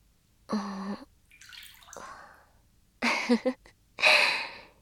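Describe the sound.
Water is poured out to rinse someone off, heard as two short splashing gushes after quieter, softer sounds.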